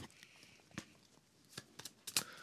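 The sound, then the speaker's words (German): Cards shuffled in a video game make a few faint, soft riffling clicks at uneven intervals, with the sharpest flurry near the end. “Okay, er mischt wieder die Karten.”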